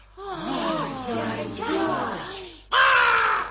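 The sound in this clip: A black raven caws harshly in a fairy tale, with voiced, wavering calls followed by a sudden loud caw near the end.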